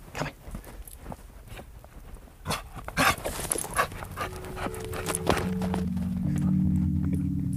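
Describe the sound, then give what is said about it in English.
A small dog pants and jumps about in the snow, with quick, breathy panting and soft scuffing steps across the first half that give way to a steady, louder hum. “enjoy the cute little Tulsi dog jumping in the snow.”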